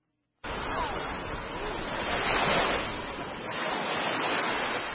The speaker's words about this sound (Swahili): Nimesimama kando kando ya bahari Hindi, mawimbi mepesi yakipiga hadi ufoni.